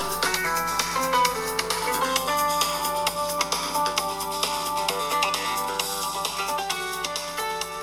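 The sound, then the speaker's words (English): A cell phone ringtone plays a faint, steady electronic melody of repeating tones that continues throughout. “So that's my husband's cell phone ring.”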